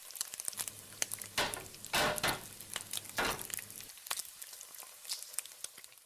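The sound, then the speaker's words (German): Fried potatoes sizzle and crackle in a pan as they cook until crisp and browned. The sound is a faint, irregular crackle with a few louder hissing bursts over a low background hum. “Und so klingt es im Schillerhof, wenn Bratkartoffeln gebraten werden.”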